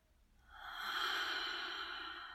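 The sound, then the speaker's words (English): A single slow, deep inhale: soft, airy breath noise swells over about half a second, then holds steady, faint and alone. “And just giving ourselves that space to breathe in.”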